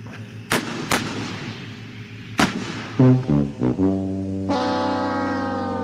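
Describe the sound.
A tankathon sounder sound effect from a soundboard opens with three sharp, cannon-like bangs, then a few short stuttering horn blasts that lead into a long, sustained brassy horn tone.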